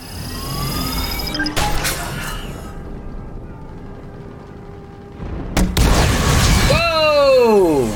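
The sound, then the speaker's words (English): Heavy weapon fire and a Reaper exploding in a video game: a few loud, sharp blasts separated by quieter stretches, then a final burst followed by sweeping tones that fall in pitch. “It shot this little tiny red ball that just sort of went up and fluttered around, and then boom, the entire Reaper dies in one shot.”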